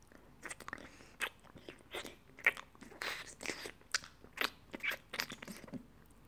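Wet licking and mouth sounds form many short, quiet smacking bursts at irregular intervals, with no speech.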